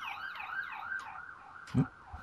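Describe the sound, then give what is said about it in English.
An ambulance siren goes past, its wailing tone sweeping up and down in repeated cycles, fairly faint, with a short low thump near the end. “That was you, wasn't it? Siren going past. Yeah, ambulance signs up.”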